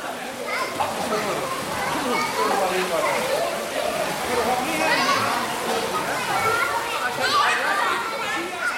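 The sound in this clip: Children in a swimming class at an indoor pool make a steady, loud wash of overlapping young voices and chatter mixed with continuous splashing water, with no pause throughout.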